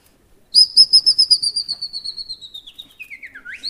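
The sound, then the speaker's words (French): A common chaffinch sings a bright, whistled song: a fast series of many sharp, repeated notes that slowly slide downward in pitch and soften, then end in a quick rising flourish. The song is heard alone, with no talk. “Ça c'est le chant du pinson des arbres.”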